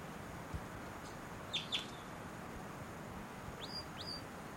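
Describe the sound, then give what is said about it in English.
Faint, high chirping flight calls of a female wild bird, a few short notes in two small clusters over a steady background hiss. “Wild bird. It might be the male in the back, but those flight calls were the female.”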